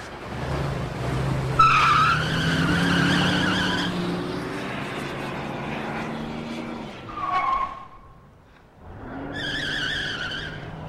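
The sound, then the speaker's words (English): A car roars away with its engine loud and sustained and its tires squealing, dipping briefly to a lull before another burst of engine noise and squeal. “He takes her in his arms as Marty roars away.”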